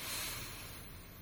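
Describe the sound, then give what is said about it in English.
One deep inhale, taken as a guided breath during a prayer of thanksgiving. A steady, airy hiss lasts about a second, strongest at first, then eases off. “So just breathe in with me.”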